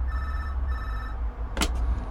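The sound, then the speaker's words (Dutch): A telephone rings in a red telephone box: two electronic ring bursts with a short gap between them, then a brief sharp clatter, all over a steady low background rumble. “Ik bel je hoor. Ja, neem nou even op, hij gaat toch over?”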